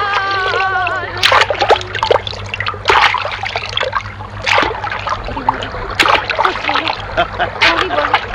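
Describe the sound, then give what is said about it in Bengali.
Water splashes and trickles as a small dinghy is pushed off into a river, with choppy bursts of splashing under people talking. “হ্যাঁ গো ঠাকুরানেরা, ছেলেটা খাঁটি কথা বলছে বটে, ছাড়বো ডোঙা এবার।”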